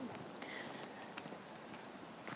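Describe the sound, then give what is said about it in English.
Heavy rain falling around a phone sheltered under a Harris Tweed hat, a steady, faint hiss with scattered light pattering taps throughout. “I'm testing my new Harris Tweed hat out here by keeping my phone dry in this heavy, heavy rain”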